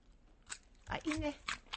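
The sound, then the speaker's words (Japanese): Crisp crunching as someone bites into a raw daikon radish with mayonnaise. A soft bite is followed by a louder, juicy crunch and a few smaller crunches, all faint, with a brief murmur of voice. “丸かぶっていいですよ、大根を。”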